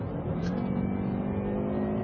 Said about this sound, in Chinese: 这台发动机呢，在驾驶过程中始终可以让你听到来自于发动机舱的声音，但是它的声音并不像很多四缸机那样干瘪发涩，可以说是比较悦耳的。而另外呢，当你伸踩油门下去，